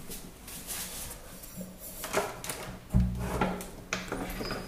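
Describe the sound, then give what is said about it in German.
A bathroom door being shut, heard as a few dull knocks and scrapes over a steady low hum, with the clearest thump about midway and a lighter one shortly after. “Das heißt, ich schließe jetzt die Badtür.”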